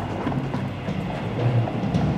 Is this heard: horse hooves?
yes